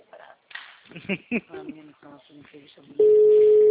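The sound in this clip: Telephone ringing tone during a call: after a person speaks briefly, a loud, steady electronic tone begins abruptly and holds at one pitch until the end.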